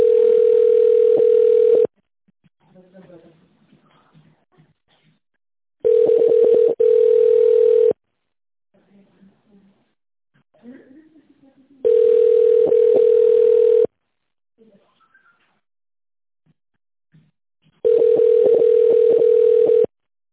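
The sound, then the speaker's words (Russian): Telephone ringback tone while a call to a company connects: four long, steady, mid-pitched buzzing tones, each about two seconds, repeating roughly every six seconds, with near-silent gaps holding only faint background noise between them. “Мы не получили действительный ответ. Подождите, идет соединение.”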